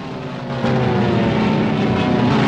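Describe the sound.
Propeller fighter planes of the Flying Tigers fly off in formation with a steady droning engine roar. The sound swells to a louder, fuller hum partway through and stays level to the end.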